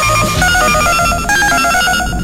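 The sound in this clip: A telephone rings with an incoming collect call, giving a loud, continuous, buzzy electronic ring with steady repeating tones and no pauses, with no talk.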